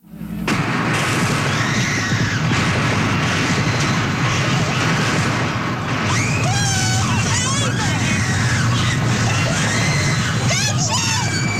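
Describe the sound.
A woman yelling through constant crowd noise as a coal company gunman opens fire on striking miners in rural Kentucky. A dense, loud roar of shouting runs throughout, and shrill, strained cries rise above it in the second half.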